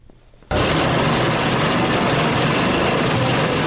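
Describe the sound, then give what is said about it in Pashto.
Garment sewing machines running in a clothing factory where many young workers sit at the machines: a dense, steady whirring din that starts abruptly after a brief quiet moment and stays loud and even to the end. “دلته یو شمیر ځوانان د جامو ګنډلو ماشینونو ته ناستي.”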